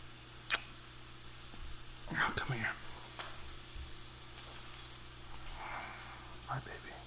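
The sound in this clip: Bacon fries in a pan with a faint, continuous sizzle, broken by a few brief clatters from cooking at the counter.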